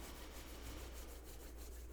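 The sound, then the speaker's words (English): Hands rubbing briskly together to build warmth: a continuous dry swishing made of many quick back-and-forth strokes in an even rhythm, at a steady moderate level with no voices. “And then you can take your hands and rub them together, generating some heat in between them.”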